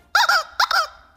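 A chicken-sound buzzer on a game show gives two short, high, squeaky squawks, each made of a quick double pulse, clear and alone.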